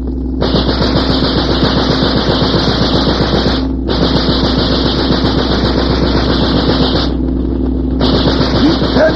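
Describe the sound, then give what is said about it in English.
Rapid automatic gunfire from a ship's gun, loud and continuous, in three long bursts with brief pauses between them, over a low, steady engine drone. “Keep turning with them. Keep that gun at them. Keep it up. Keep it up. Cease fire.”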